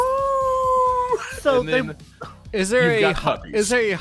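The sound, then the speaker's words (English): A human voice imitates a dog's howl in a video game scene with dogs: one steady, sustained tone held for about a second, followed by talking. “Fade to black and then howl of a dog like a”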